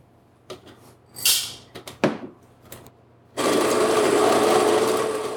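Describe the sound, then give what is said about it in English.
An electric coffee grinder grinding beans for a Chemex brew at a slightly finer setting: a few clicks, knocks and handling sounds, then a loud, steady whirring grind that continues to the end. “So I'm going to grind this coffee.”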